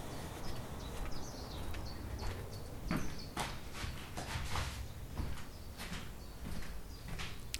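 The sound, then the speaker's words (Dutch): Footsteps walk into a cell-like room at Fort Vuren, a fort, in the early morning. Many uneven, fairly sharp steps and scuffs keep a loose walking rhythm throughout. “Ik heb overnacht in een fort. Fort Vuren. Loop nu mijn celkamer binnen.”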